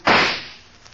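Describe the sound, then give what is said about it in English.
A single gunshot fired into the air: one sharp, loud crack that begins abruptly and then decays over about half a second into a fading tail, heard alone. “Jean Valjean, why did you fire that gun in the air? Why didn't you shoot me?”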